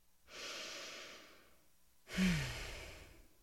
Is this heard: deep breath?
yes